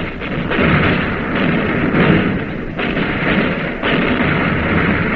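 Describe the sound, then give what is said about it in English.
Warship guns firing shells at an enemy cruiser in a naval battle, a loud, dense roar broken by several heavy booming bursts, continuous and harsh with no voices. “Now the shells are hitting the enemy cruiser.”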